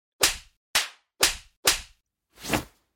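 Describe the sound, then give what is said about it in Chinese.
Sharp slaps across the face while an ear is pulled, five crisp smacks spaced almost evenly, each with a quick whooshing decay, the last one broader and softer. “被我揪着耳朵扇耳光还不肯吗？”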